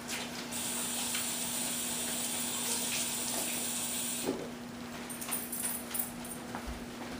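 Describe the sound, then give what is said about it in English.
Tap water runs steadily while hands are washed at a sink during cooking, a smooth hiss for about four seconds that then stops. A few faint drips and small knocks follow in the quiet. “So I'm gonna wash my hands really, really well.”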